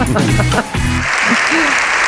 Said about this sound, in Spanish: 7 minutos duró el aplauso.